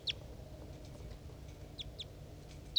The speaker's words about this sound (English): It's 9:14, I'm 2 meters from the cage. I'm recording the three birds as they interact.